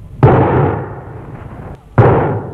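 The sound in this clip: Two gunshots fired inside a house, each a sudden loud bang followed by a long, fading tail, with about two seconds of quieter decay between them.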